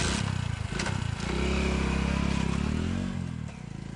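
A car driving off fast, its engine revving into a loud, steady roar that builds after a moment and then eases slightly near the end.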